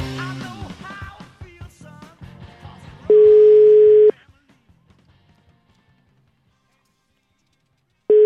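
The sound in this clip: Telephone tone after a call is hung up: brief voice-like sounds give way to a steady single-pitch tone lasting about a second. A long silence follows, then the tone starts again at the end.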